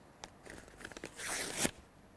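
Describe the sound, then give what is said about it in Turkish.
A sheet of paper tears apart by hand in several crackly rips that build into a louder, sustained tearing burst and then stop abruptly. “Şimdi burada kağıt var. Bu kağıttan herhangi bir ses duyulmuyor. Ben şimdi bunu bakın şöyle ortadan ayırdığımda”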